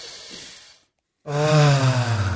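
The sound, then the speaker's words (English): A deep breath is drawn to clear the mind, a soft, breathy rush of air. After a short silence, a sustained, steady voiced tone follows. “Should we do these breaths real quick? Oh, yeah, we forgot our breath. Let's take a breath to clear our mind.”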